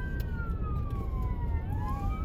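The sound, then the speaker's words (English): Emergency vehicle sirens wail without pause from inside a car caught in traffic amid smoke and debris, their gliding tones sweeping up and down over a steady, loud roar of road noise. “sirens everywhere”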